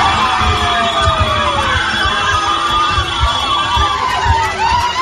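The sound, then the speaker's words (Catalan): Cadí la Seu women's basketball players scream, yell and cheer after finishing their match in France and qualifying for the women's EuroCup quarterfinals. Loud, continuous overlapping shouts fill the whole stretch. “Són les jugadores del Cadí la Seu acabant el seu partit a França i classificant-se pels quarts de final de l'Eurocup femenina.”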